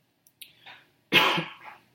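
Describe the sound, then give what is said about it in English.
A man coughs while preaching a sermon: a few faint throat sounds, then one louder, harsh cough burst that trails off, quiet overall with no speech. “I apologize for coughing through this.”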